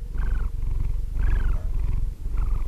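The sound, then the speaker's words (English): Cat purring while asleep, a steady low rumble that swells in three rhythmic breath cycles, with a soft higher wheezy tone riding each inhale; fairly loud and continuous, with no voices. “This is the sound of my cat, Sammy, sleeping.”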